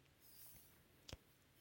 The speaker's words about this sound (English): I accidentally clicked that.